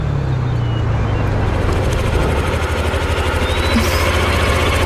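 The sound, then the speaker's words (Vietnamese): A motorbike engine runs steadily, a rapid low chugging rumble that keeps an even pulse throughout at a moderate level, with no voices over it. “Ba mẹ kêu tôi tới đón cô. Tôi chưa từng ngồi xe máy. Nếu chưa từng ngồi thì càng phải thử chứ. Lên đi, lên đi.”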